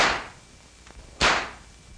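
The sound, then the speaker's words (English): Two sharp cracks from paint pellet guns mounted on a car, fired during a braking-reaction test, come about a second apart. Each is a loud whip-like snap that decays quickly into quiet. “When the driver hears the report, he jams on his brakes, and bang goes the second gun. The stage is set for some novel gunplay in the interest of safety. When they're rolling, the officer beside the driver presses the button.”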